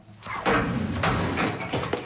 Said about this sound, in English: Starsky picks up a chair and throws it at the wall